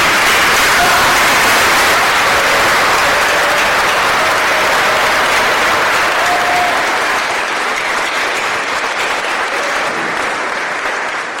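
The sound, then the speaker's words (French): A standing ovation from an audience at a tribute in Haiti, dense and loud sustained applause that continues throughout and thins slightly toward the end. “je vais vous demander de vous mettre debout et de faire une ovation spéciale pour Mika”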